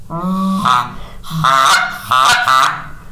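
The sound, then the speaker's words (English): A long-reed goose call, its reed about three inches long and half an inch wide, is blown in three loud, nasal honks, each breaking sharply into a higher cracking note before it ends. “And the long reed goose call is a little bit more for beginners.”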